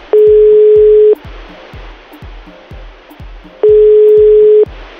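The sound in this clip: Telephone ringback tone while placing a call: two loud, steady tones of about a second each, separated by a silent gap of roughly two and a half seconds.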